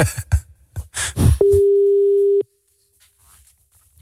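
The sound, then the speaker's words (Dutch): Telephone ringback tone while calling someone: one steady, loud electronic tone lasting about a second, following a stretch of talk and ending in near silence. “We gaan haar even bellen.”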